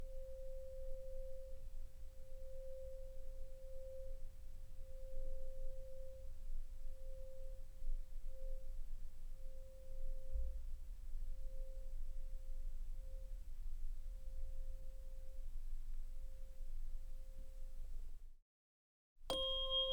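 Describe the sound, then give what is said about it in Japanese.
A vibrating tuning fork rings a single pure, steady tone. It sustains faintly and evenly for about eighteen seconds over a low rumble, then cuts off abruptly. “揺れる音叉の音がスーッと体に染み込んでくる。”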